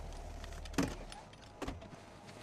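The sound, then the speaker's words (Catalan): A car pulling in to park: two brief, sharp thumps stand out over a low, steady rumble, with quieter noise in between. “I el meu pare. Aparca. És el cotxe del meu pare.”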